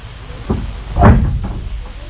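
A door is opened: a few low wooden thuds and latch clunks over a steady background hiss, with the strongest knock in the middle and softer ones before and after.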